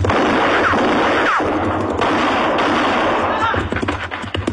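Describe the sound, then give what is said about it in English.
Gunfire from a young rider's gun aimed at a man: loud, sharp shots within a dense, continuous roar, with quicker bursts toward the end. “No, he missed me. But he was shooting mighty close.”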